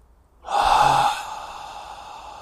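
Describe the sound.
A single long exhale through the mouth, starting as a strong breathy rush and then thinning into a quieter, trailing tail of air, alone without speech.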